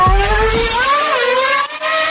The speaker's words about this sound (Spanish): nos abrochamos el cinturón, ponemos la primera velocidad, pisamos el acelerador